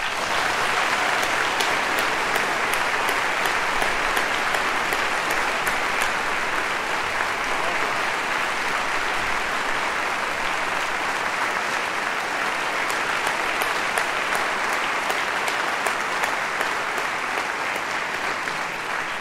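Sustained applause from an orchestra concert audience welcoming a soloist back to the stage, a dense, even wash of clapping that holds steady for the whole stretch with no talk.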